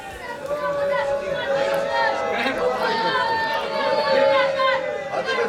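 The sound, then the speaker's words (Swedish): A large crowd of Orthodox protesters fills a central Jerusalem street, with many overlapping raised voices forming a dense, steady roar of chatter and shouting that stays loud through the whole clip. “det ni hör där är från en stor protestaktion som började i centrala Jerusalem för en liten stund sedan.”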